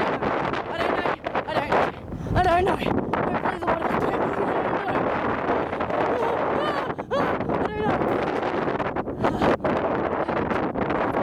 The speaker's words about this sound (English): You're gonna need to pardon the wind in the background.